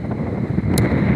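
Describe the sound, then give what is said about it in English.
Outdoor wind buffets a microphone, producing a continuous, loud low rumble that churns unevenly throughout the short stretch, with no speech. “oh my God, why is it so windy? The wind is so off-putting.”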